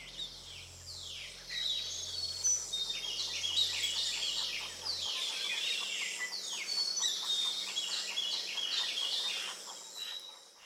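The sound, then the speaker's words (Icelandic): Birdsong at sunrise, a dense dawn chorus of many birds chirping, trilling and whistling together in a continuous, busy texture of bright high calls that never pauses. “Með sólaruppbrásinni fylgir stanslaus bylgja af fuglasöng sem berst í kringum hnöttin, hring eftir hring, dag eftir dag.”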